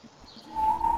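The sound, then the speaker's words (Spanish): Windows whistle in the wind. A thin, steady high tone starts about halfway through and holds to the end over a low rumbling wash. “Ay, me encantan mis whistles de fondo. Mis ventanas silban por el viento.”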